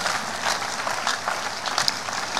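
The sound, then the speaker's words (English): A church audience applauds: dense, steady clapping from many hands that stays fairly even in loudness throughout. “Church, give the Lord a big hand for them.”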